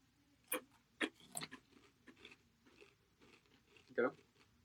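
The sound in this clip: Faint crunchy chewing of cornflakes, with a few crisp crunches spaced irregularly and quiet mouth sounds between them.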